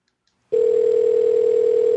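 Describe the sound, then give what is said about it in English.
A telephone rings unanswered, heard from the caller's end as a steady, mid-pitched buzzing tone that begins after half a second of silence and holds unbroken to the end. “Are they ever going to answer the fucking phone?”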